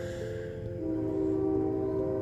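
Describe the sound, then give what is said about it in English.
A train passing at night, a low steady rumble under a sustained horn-like tonal hum that swells slightly partway through, with no voices. “maybe there's a sign that I should really be a train conductor, because out of the silence of tonight, it seems like one train after another.”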